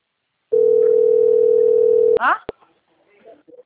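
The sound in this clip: Telephone ringing tone while a call is placed to a bank, a single steady mid-pitched tone sustained for under two seconds, then cut off by sharp clicks and a few faint, scattered sounds as the line connects.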